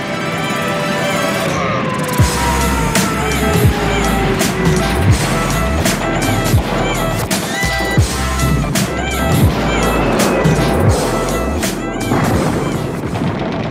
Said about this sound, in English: Do you like it? Grand, aggressive, machine guns. I love it, man.